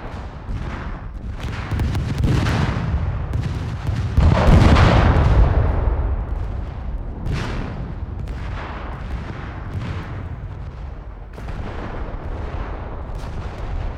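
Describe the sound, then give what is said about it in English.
Synthesized explosions of a distant battle: a dense barrage of booms and sharp cracks over a continuous low rumbling roar, swelling loudest near the middle and holding steady afterward. “now these explosions should happen a little bit more in increasing intensity as the battle goes on”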